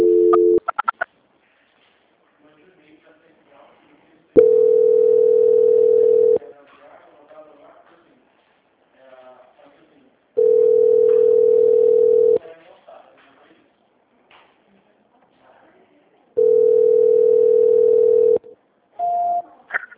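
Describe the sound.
Ringing tone on a phone line while a call is being transferred: long, steady, mid-pitched tones of about two seconds each, three full ones, separated by near-silent gaps with faint murmurs and brief voice sounds at the end.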